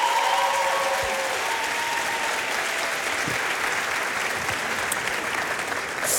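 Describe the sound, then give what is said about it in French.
Steady crowd applause, dense continuous clapping that holds evenly and eases slightly at the very end. “Donc déjà, du bruit pour vous, du bruit pour eux.”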